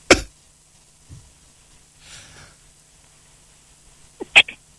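A single sharp, loud sneeze bursts out at the very start. Then comes a long stretch of near-quiet with faint breathy noises, and another short, abrupt vocal burst near the end.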